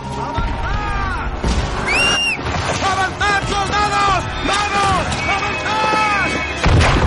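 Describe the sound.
Bomb explosions on a battlefield in a war drama film: a dense, continuous roar of blasts with whistling, curving tones sliding through it, loud throughout with no quiet gaps.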